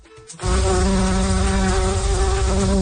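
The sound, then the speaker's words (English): Bumblebees and other pollinators buzz on a fruit farm on Prince Edward Island: after a brief quiet moment a loud, steady insect drone starts abruptly and holds a constant, reedy pitch. “there could soon be more bumblebees and other pollinators buzzing around Prince Edward Island if Charles Lipnicki gets his way.”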